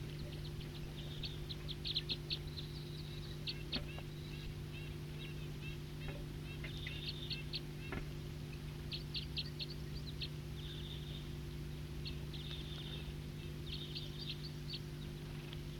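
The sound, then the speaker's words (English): Wild birds sing in many short, high chirps and twitters. The calls come in scattered bursts and sit faintly over a steady low hum. “Wild birds.”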